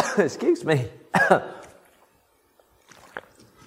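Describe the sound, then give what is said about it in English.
A speaker addressing an audience coughs: a few harsh, voiced coughing bursts come in quick succession, then fade into quieter breathy throat sounds and faint scattered noises. “talk amongst yourselves while I cough”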